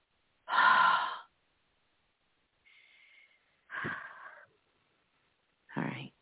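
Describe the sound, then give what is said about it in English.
A person breathes out four times: a long, forceful exhale first, then a faint one and two shorter, airy breaths, with quiet gaps between them. “I want you to take a moment and exhale for me. Just breathe out.”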